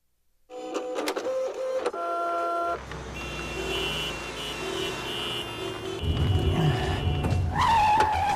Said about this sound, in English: I think it's a vision of work captured best by the 90s comedy Office Space. Let me roll a piece of the trailer just to get this on our minds.